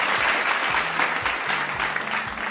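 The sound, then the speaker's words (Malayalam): Applause from a group during a quiz session: steady, dense clapping that holds at an even level throughout, with no talk over it. “അപ്പൊ എന്തായാലും എല്ലാവർക്കും ഉള്ള ഒരു clap ഞാൻ തരാണ്.”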